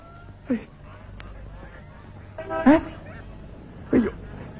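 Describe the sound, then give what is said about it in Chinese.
White geese give three short, nasal honks, spaced a second or more apart, over a low steady background. “喏，都是这群该死的白鹅。”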